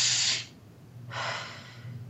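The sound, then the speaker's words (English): A deep breath, heard as two broad, airy rushes of breathing separated by a short pause, steady and fairly loud, with no talking. “Well, we're going to take another deep breath.”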